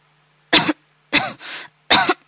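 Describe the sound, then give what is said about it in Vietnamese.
Stifled coughing as someone tries to hold back a coughing fit. Three short, harsh bursts, with a softer breathy rasp between the second and third. “Trình Nhất Tạ cố kiềm lại cơn ho.”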